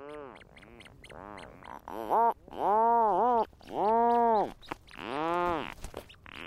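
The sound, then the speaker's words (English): Several rhinoceros auklets and their chicks calling on a wildlife refuge island in the Strait of Juan de Fuca, off the Pacific coast: a run of short, nasal harmonic calls, then a few long groaning moans that arch up and down in pitch. “These are several rhinoceros auklets with their chicks, recorded at Protection Island National Wildlife Refuge in the Strait of Juan de Fuca off the Pacific coast.”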